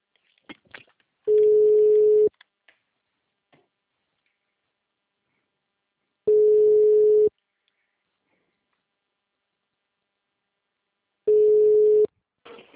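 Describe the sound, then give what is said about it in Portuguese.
Ringback tone of an outgoing telephone call: three steady, mid-pitched one-second tones spaced about five seconds apart, with near silence and faint noise between them. “Deixa eu ver se vai atender aqui. Tá, chama.”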